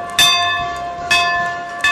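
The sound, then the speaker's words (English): Three rings of a dinner bell at a farm organization's country dinner on Capitol Hill, each a sharp metallic strike followed by a bright, sustained ringing tone that slowly fades before the next. “that was the dinner bell ringing yesterday on Capitol Hill”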